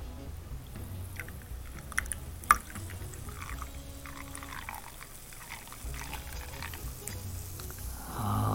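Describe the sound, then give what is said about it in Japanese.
Canada Dry ginger ale poured into a birthday cocktail made to look like champagne, a steady fizzy pouring stream with a couple of sharp ticks early on and continuous bubbling. “ここに、えー、誕生日おめでとうございますということで、えー、シャンパンに見立てたジンジャーエールを流し込んでいきたいと思います。”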